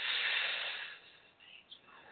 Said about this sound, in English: If you're ready, eyes closed. Let's breathe in.